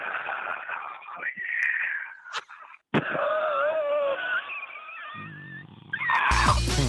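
Heavy, raspy breathing over a phone line from callers in a call-in ticket contest: thin, tinny huffs and wheezy, throaty rasps, broken by a few sharp clicks before music starts at the end.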